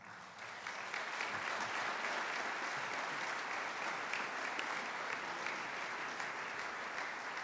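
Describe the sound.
An audience at a memorial service in Kresge Auditorium at Interlochen applauds a speaker onto the stage, a dense, steady wash of many clapping hands that swells in quickly and holds evenly.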